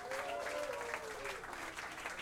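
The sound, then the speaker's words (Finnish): Audience applause at a live DJ and jazz club night, greeting performers being introduced: dense, steady clapping that fills the whole clip at an even, moderate level without breaks. “Jatsissahan yleensä taputetaan sooloille, joten tässä on hyvä harjoitella aplodeja.”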